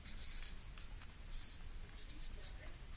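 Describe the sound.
Handwriting with a pen on paper as an address is written out: faint, dry scratching strokes that come in short, irregular bursts and keep going quietly throughout.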